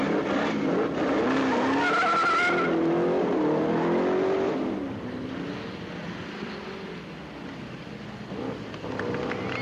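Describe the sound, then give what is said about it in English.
Drag race cars skidding, tires squealing over a roaring engine in a loud, continuous wash that dips slightly in the second half. “I wonder what all the excitement's about. It looks like some sort of a race. It is. It's a drag race.”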